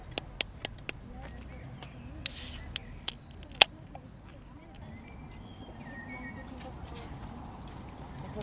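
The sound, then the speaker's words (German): A can of Warsteiner Herb beer is cracked open: a few sharp clicks, then a brief fizzing hiss as the tab releases, followed by more small clicks over quiet background noise. “ich mache mir erstmal ein Bier auf.”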